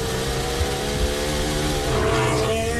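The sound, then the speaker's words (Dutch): Onboard engine sound from Lando Norris's Formula 1 car in qualifying at the Azerbaijan Grand Prix, a loud, continuous high-revving whine with strong harmonic tones that shift in pitch. “Dit onboordgeluid komt vandaan bij Lennon Norris.”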